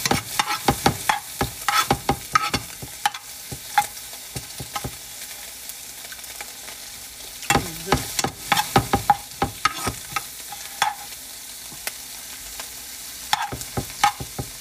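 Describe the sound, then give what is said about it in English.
Eggs frying on a stove give a constant sizzle under many sharp clicks and scrapes of stirring, with a dense cluster of taps partway through. “I make sure my eggs are cooked. Not burnt, but cooked.”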